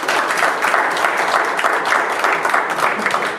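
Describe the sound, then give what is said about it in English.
A church audience breaks into applause during a service, a loud, dense patter of many hands clapping with gentle surges in intensity, steady across the whole stretch and easing slightly at the end. “Lord, have applause.”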